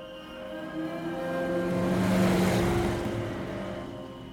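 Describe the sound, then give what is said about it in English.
Getaway cars drive off along an open road on a summer night. The engine drone swells gradually to a peak midway, then slowly eases off. “The men load up into the getaway cars and drive off into the sweet, sultry summer night.”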